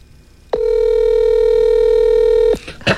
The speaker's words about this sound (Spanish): Ahí está marcando. Se escucha cuando marca.